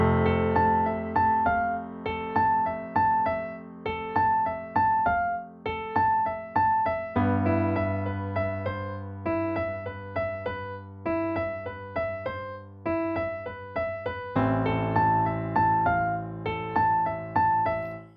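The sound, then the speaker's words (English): A TV drama score theme, a short melodic motif repeated and shifted over a changing series of chords, played in soft plucked or struck notes that decay after each attack, with no voices. “Now, that motif is developed through a series of chords as we hear this scene go. The basic melodic shape of that motif stays the same, but it starts in different places depending on what chord is playing underneath”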